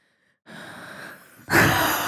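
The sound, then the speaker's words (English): A person performs deliberately creepy breathing: a long, soft, airy breath followed by a louder, harsher rasping breath, heard alone without talking. “Creepy breath.”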